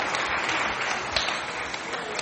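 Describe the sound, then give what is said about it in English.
Audience applause for volunteer helpers, a dense, steady wash of clapping from a crowd, fairly loud and sustained throughout. “Give my helpers a big round of applause.”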